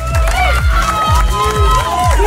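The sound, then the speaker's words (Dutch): Crowd cheering and applause for an award winner at a finale ceremony, loud and continuous, with high excited shouts and whistles riding over a steady thumping beat. “Mag ik nog eens een daverend applaus voor Dino?”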